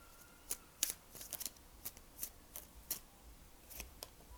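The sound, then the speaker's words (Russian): Tarot cards are shuffled and spill out, giving many light, crisp snaps and flicks in an uneven rhythm, faint and alone without talk. “Все-таки, знаете, хочется как будто бы отключить э, ну, запись, чтобы достать карты и сфокусироваться. Но вот когда я начала вам это говорить, карты прям посыпались сами.”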